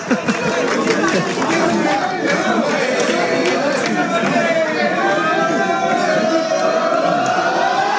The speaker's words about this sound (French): Et voilà, et on entend les supporters du FC Balagne qui acclament aussi le président Navarro.